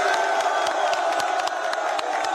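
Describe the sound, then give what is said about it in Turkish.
Fenerbahçe fans at an Istanbul airport terminal roar, cheer and chant to greet Lukaku. The loud, continuous crowd noise is punctuated by rhythmic sharp accents. “Lukaku taraftarları selamladı. Tezahüratlara eşlik etti.”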